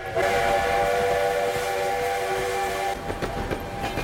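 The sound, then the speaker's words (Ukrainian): A steam locomotive pulls freight wagons across open snow-covered land. A loud, steady multi-tone whistle sounds for about three seconds, then gives way to rumbling and the irregular clacking of the wagons. “Чорний паровоз, чадячи чорним димом, тягне чорні товарні вагони білим засніженим простором.”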